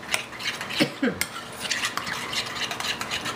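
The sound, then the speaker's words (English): A utensil stirs and mixes ingredients in a bowl as they are added, making scraping swishes and light clinks, with a couple of sharper knocks early on. “now what I'm going to do is I'm just going to give it a little mix here as I'm putting the ingredients in.”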